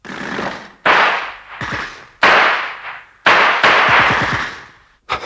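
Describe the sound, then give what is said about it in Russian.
Gunfire from German submachine guns: several loud, sharp bursts of shots with abrupt attacks and ringing decays, spaced irregularly and heard without speech. “По звуку стреляли из немецких автоматов.”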